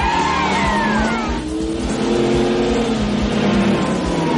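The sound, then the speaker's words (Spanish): A car races through city streets with police cars in pursuit, its engine roaring loud and continuous under sliding whines and squeals, with no talk. “El coche avanza por las calles de la ciudad. Varios coches patrulla empiezan a perseguirlo.”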